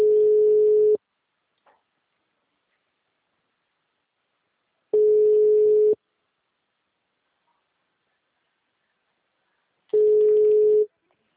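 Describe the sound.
Telephone ringback tone while a call connects: three one-second bursts of a steady, mid-pitched tone, each followed by about four seconds of silence.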